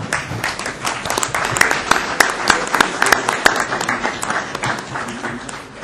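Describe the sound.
An audience applauding at a council meeting to wish an absent member a happy birthday, a lively round of many claps with irregular peaks that fades toward the end.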